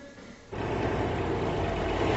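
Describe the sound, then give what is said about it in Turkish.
A coach bus pulls out of a bus station. After a quieter first moment, a deep engine rumble starts suddenly and holds steady and loud to the end. No voices are heard. “Mola seyahat otobüsü otogardan ayrılıyor.”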